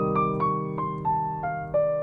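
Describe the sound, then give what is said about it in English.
Six notes of a C minor chromatic arpeggio exercise step steadily downward in pitch, each note struck clearly and held over a sustained lower tone, with no talking. “So we're moving from the 13th to the 11th to the 9th to the 7th. okay? Or 6 to 4 to 2 to 7, all right? So it's going to sound like this.”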